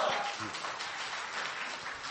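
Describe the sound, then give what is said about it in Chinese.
Audience applause at a crosstalk comedy show: a continuous wash of clapping from many people, steady and moderately soft from start to finish. “什么呀还没唱 都鼓掌了就算了 鼓掌欢迎您唱”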